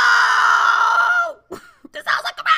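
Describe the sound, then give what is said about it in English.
A human voice imitates a large rat squealing like a pig in a building vestibule: one long, high, strained squeal, followed by a few short, broken vocal bursts. “this baby pig of a rat starts squealing like a pig. Wah! Wah! Wah! Wah!”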